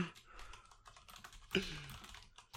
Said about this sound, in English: It did not show me at all that you were typing until after I had typed it in.